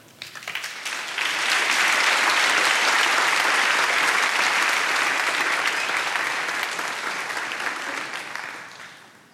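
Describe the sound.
Audience applause welcoming a speaker to the stage: a dense, even wash of clapping that swells quickly, holds steady for several seconds, then slowly tapers off.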